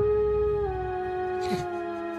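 A wolf howl sound effect: one sustained, tonal howl that holds steady for about two seconds, with a slight step down in pitch partway through, heard alone.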